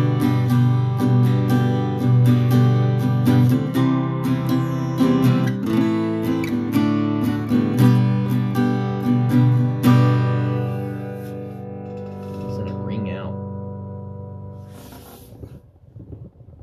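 A Silvertone parlor acoustic guitar with new strings plays a run of bright, full chords and single notes for about ten seconds, then the last chord rings on with long sustain, fading slowly until a faint string noise at the end.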